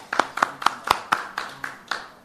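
Clapping welcomes a panel of ward councillor candidates at an election forum: about eight sharp, evenly spaced claps in a steady rhythm, sounding thin rather than like a dense crowd.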